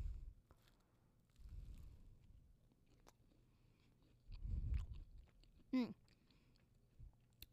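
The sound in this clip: Faint chewing of a pink macaroon: a few soft, crunchy bites and moist mouth sounds at low volume, separated by quiet pauses.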